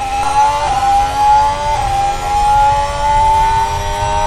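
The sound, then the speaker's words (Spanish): A Ferrari racing car engine is heard during a lap of a fast, undulating circuit of about 7 km, a loud, steady, high-pitched engine whine with small shifts in pitch. “Así empieza la vuelta del piloto de Ferrari.”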